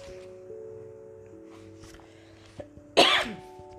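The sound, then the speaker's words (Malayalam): A single harsh, loud cough from someone with a sore, irritated throat. It bursts out near the end after a faint throat sound, over a steady low hum. “നല്ല ചുമ വരുന്നുണ്ട് കേട്ടോ.”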